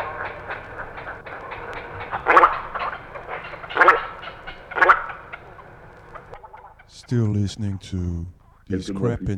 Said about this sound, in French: Au-dessus d'eux, dans les arbres, les aigrettes garzettes ont établi leur nid. Elles conversent calmement à leur manière.